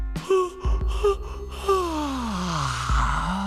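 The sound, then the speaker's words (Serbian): A person yawns aloud. A few short voiced sounds lead into a long, drawn-out moaning exhale whose pitch slides steadily downward before it fades. “Ne zevaj sad kad je najzabavnije.”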